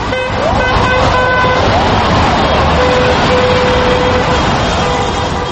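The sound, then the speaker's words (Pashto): Drivers honk car horns in support of protesters lining snow-covered streets in Moscow, with several sustained horn tones sounding over loud, steady traffic noise. “یو شمیر موټر چلوونکو د اعتراض کوونکو سره د ملاتړ په دود د خپلو موټرونو هارنونه غږول”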